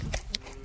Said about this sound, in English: That's the sound of a calf sniffing.